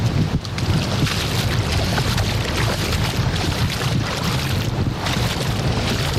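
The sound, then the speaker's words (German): Waves and wind at a sandy island beach, heard by someone standing in the shallow water. A loud, steady rush of wind and surf with no clear breaks, and no voices. “So, ihr hört das, oder? Vor genau einer Stunde sind wir losgeflogen und jetzt stehe ich mit den Füßen auf der Insel Jüst im Wasser.”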